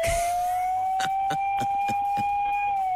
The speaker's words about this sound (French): Eh ben la sirène. Ah la sirène.